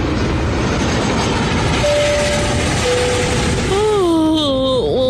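A steady, loud rumbling roar from an airliner's engines as it nears landing at Taoyuan airport, with a droning tone that wavers and dips toward the end.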